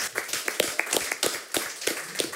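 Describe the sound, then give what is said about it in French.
Scattered handclaps from a small audience applauding performers, distinct individual claps in an irregular rhythm rather than a full wash. “Eh ben voilà, merci messieurs. Vous pouvez les applaudir.”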